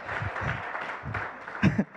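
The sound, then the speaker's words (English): Scattered audience clapping, started by a police officer, during a church talk: a few uneven bursts of claps with gaps between them, and a short vocal sound near the end. “The police officer started that clapping, by the way.”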